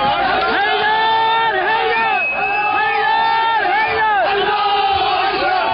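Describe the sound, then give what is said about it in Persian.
Crowd of attackers cheering and shouting during an attack with stones, sticks and Molotov cocktails on the Saudi embassy and consulate in Tehran and Mashhad: a loud, continuous mass of overlapping voices in chant-like cries. “این صدای شادمانی مهاجمانی است که در 12 دی ماه 1394 با سنگ و چوب و کوکتل مولوتوف به سفارت و کنسولگری عربستان سعودی در تهران و مشهد حمله کردند.”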